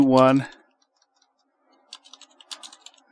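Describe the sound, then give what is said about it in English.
Dice rolled on a radio shopping show: a brief burst of speech gives way to a quiet pause, then many rapid, light clicks and rattles scatter unevenly. “So I'm going to roll the dice, and you are going to be able to get those items at half off.”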